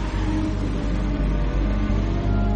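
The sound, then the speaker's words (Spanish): An Aston Martin convertible drives away with a steady, low engine rumble and broad road noise that holds throughout without fading. No voices. “En la calle sube a su Aston Martin descapotable. Alguien observa desde otro vehículo. Mark se va.”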